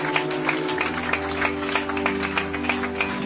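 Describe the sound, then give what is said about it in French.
Worship-service audience clapping to the Lord: sharp claps fall at a fairly steady beat over sustained musical tones, continuing for the whole stretch. “Somebody let us clap to the Lord. Si on peut applaudir pour le Seigneur en ce moment.”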